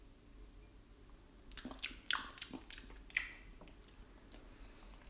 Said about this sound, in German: Okay, kleiner Probekost.